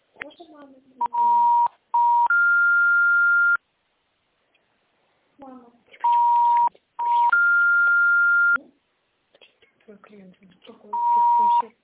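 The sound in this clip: Telephone tones while a call is placed: recurring groups of steady electronic beeps, short lower tones followed by a longer higher one, alternating with stretches of talk.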